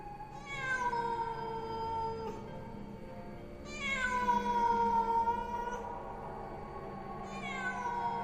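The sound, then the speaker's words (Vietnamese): A cat meows in three long, drawn-out, wavering calls with pauses between them. The last call is cut off, and no other sound accompanies them. “Tiếng con mèo kêu lên làm cho ông Linh và thằng Bửu”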